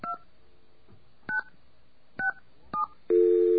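Telephone keypad tones entering a password: four short, separate key beeps at an unhurried pace, followed by a louder, sustained steady tone.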